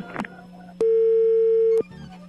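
A telephone ringback tone plays while a call waits to be answered. A single steady, mid-pitched beep lasts about one second over a low hum, with faint noise before and after it.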